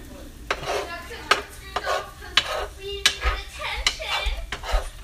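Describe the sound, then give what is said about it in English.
Egg yolk being mixed in a bowl: many sharp clicks and scrapes of a utensil against the dish in an uneven, busy rhythm, fairly loud. “Now I'm just mixing the yolk up.”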